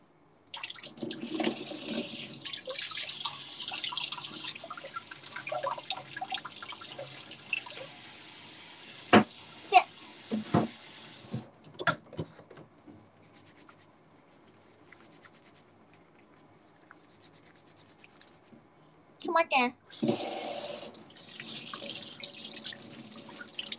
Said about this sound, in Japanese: ちょっと待って。手洗うわ、ちょっと。